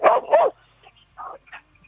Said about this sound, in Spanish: los perros ladrando